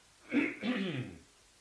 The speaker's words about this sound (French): Ça me fait tousser toutes ces questions tellement c'est palpitant.